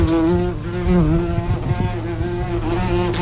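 A wasp buzzes loudly and steadily, its droning whine rich in overtones and wavering slightly in pitch throughout, with no talk.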